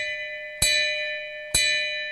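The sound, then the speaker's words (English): An old, dented hand bell rings with a clear, sustained metallic tone. It is already sounding at the start and is then struck twice more, each strike bright and sharp before decaying slowly into the ring. “but the bell represents so much. Would you ring this for me 3 times? Just 3 times for me, just real quick.”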